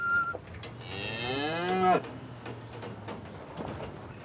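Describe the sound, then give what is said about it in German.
A breeding bull in a livestock trailer lets out one long, loud, deep lowing moo with rich harmonics that cuts off abruptly, with background noise before and after. “Jetzt ist der Viehhändler endlich da. Im Anhänger Deckbulle Ivo.”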